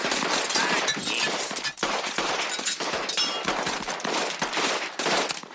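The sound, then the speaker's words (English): Derringer pistol gunshots during a card-game standoff: many rapid, sharp cracks and pops overlap in a dense, continuous volley that stays loud throughout, with no voices heard. “those derringer bullets are weak. Powerful weak.”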